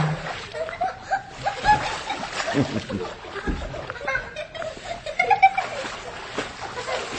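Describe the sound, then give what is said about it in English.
Someone swimming and splashing in water on a film set, irregular splashes and sloshing that rise and fall throughout, with voices and a few light chuckles around them. “Come on in, darling. Show me how you can swim.”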